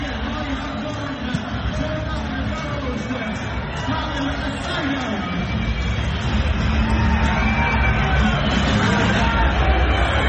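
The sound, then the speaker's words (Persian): Arena crowd noise at a wrestling competition in Kermanshah, Iran, as spectators cheer American wrestler Jordan Burroughs. A thick babble of voices grows louder in the second half. “با استقبال فراوان تماشاگران هم برگزار شده. خیلی هم انتقاد کردن که چرا یک جای بزرگتر، یک محل مناسبتر، ورزشگاه اینجا هم دارن جردن باروز رو تشویق میکنن.”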